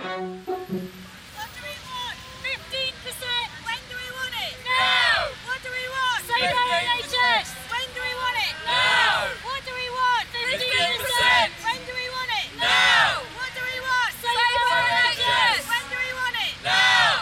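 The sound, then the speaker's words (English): Protest crowd noise outside Parliament in Britain, where NHS workers demonstrate against a 1% pay offer: a dense babble of many voices with repeated raised shouts rising and falling throughout. “Sorry about the noise, we're outside a protest outside Parliament.”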